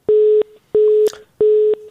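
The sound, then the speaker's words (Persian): A telephone busy tone sounds after a phone call disconnects: three identical steady, low-pitched beeps, evenly spaced with short gaps between them, clear and alone. “فکر میکنم تماس ظفر جان جاوید قطع شد متاسفانه.”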